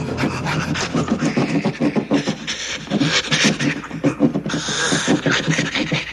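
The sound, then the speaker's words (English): Someone sawing with a blade in a video game: many rhythmic rasping strokes in a steady back-and-forth pattern, with breathy panting mixed in. “I saved it on that spot right here just so you can see this part, just to hear what it sounds like. He's sawing.”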